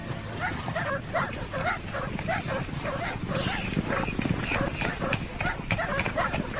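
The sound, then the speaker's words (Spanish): Hunting dogs barking and yelping on a mountain at nightfall as a hunting party gathers. The barks come as many sharp, repeated bursts throughout, mixed with voices. “¡Atad los perros!”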